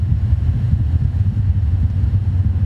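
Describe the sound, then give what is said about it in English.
Low, steady engine rumble from a turbocharged van on the road, loud and continuous with no talk. “Oh yeah, you guys hear that turbo?”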